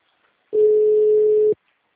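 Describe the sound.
Telephone ringback tone while a call connects: a single steady, mid-pitched beep lasting about one second, alone between stretches of silence.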